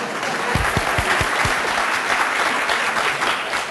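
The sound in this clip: An audience at a meeting applauds in a steady, dense wash of clapping that holds at an even level throughout, with no pauses and no talk.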